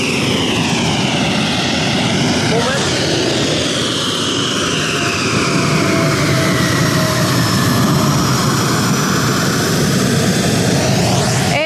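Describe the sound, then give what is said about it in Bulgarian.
F-16 fighter jet landing on a runway: a loud, continuous roar of jet engine noise with whining tones that sweep in pitch near the start and again at the end. “F-16, видяхте, който кацна току-що и поздрави всички, които са тук на пистата.”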